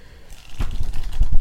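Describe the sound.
Pages of a thick reference book being turned, with a few soft papery rustles and flicks coming in quick succession after a quiet start.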